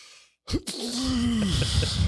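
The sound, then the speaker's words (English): A voice imitates a loud, impolite sneeze: a sharp burst of breath, then a drawn-out voiced cry that slides downward in pitch before trailing off into noisy breath. “And the video showed this dude sneezing”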